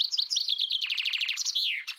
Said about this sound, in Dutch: Dan valt het op dat de vinkenstrofe eindigt met een tik. Dus niet met de slag. En dan komt er nog een roep van een grote bonte specht achteraan.